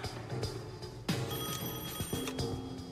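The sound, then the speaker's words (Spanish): A telephone rings with an incoming call in the early morning in New York in 1983. The bell-like ringing is moderately loud and mixed with other sharp, bright hits over a steady background. “El agente especial del FBI, Larry Wack, recibe una llamada en la madrugada”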